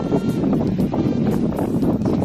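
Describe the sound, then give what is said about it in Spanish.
Strong wind gusts from a heavy snowstorm in the north of Spain roar as a loud, steady, rushing noise buffeting the microphone, with slight surges and no pause throughout. “Está dejando nevadas intensas y rachas de viento fuertes en todo el norte de la península.”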